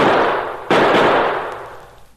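Gunfire in a shootout: a loud, sharp report cuts in over the ringing tail of an earlier blast, then decays slowly into near silence.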